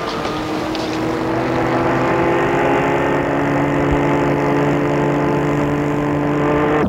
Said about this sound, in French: Et le chauffeur l'a fait démarrer.